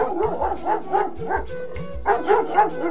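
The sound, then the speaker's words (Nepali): A dog barks on a dark, moonless night, a run of repeated barks in a loose rhythm, each with a whining tone, fairly loud and heard alone. “कुकुरको भुकाई बेला बेलामा सुनिन्थ्यो”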